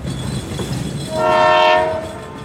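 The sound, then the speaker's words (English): A train horn blasts over the rumble of a passing train, one sustained, rich-toned blow lasting about a second before fading back into the steady rolling noise. “Good thing we had the train in the background for that one.”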